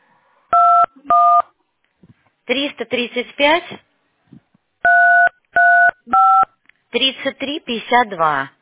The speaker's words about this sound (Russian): Сейчас я буду набирать.